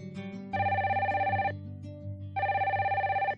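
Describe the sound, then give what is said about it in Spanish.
A telephone bell rings in two long bursts separated by a short pause, the ring a bright, rapidly trilling tone heard fairly softly over a low steady hum. “dos amigos y residentes en Madrid hablan por teléfono.”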